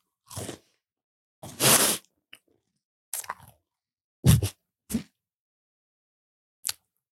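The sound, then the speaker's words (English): Dry granola being crunched with crisp, brittle bites, several short crunching bursts with quiet gaps between them, a few louder and fuller, others small and clicky, with no talking. “Mmm, these are not bad. They're really dry, though. That's pretty much granola.”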